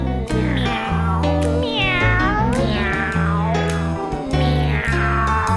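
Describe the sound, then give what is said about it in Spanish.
Drawn-out domestic cat meows over steady music, a cat begging for food, with a few gliding calls that bend up and down in pitch and sit loudly above sustained low notes. “Cuando pide la comida nunca deja de maullar.”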